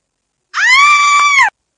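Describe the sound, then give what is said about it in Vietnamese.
A thin woman screams in fright, startled when a ghost in a wedding dress bursts from behind a door in the east wing of an old house. It is a single loud, shrill, sustained shriek lasting about a second, holding an even, high pitch. “Người phụ nữ đen gầy bị dọa thét chói tai, liên tiếp lùi về phía sau.”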